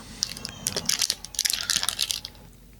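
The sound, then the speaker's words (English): A rubber ring is handled, giving many quick, irregular crinkling clicks and crackles at a moderate level that die away near the end, with no talk. “Rubber ring of some sort.”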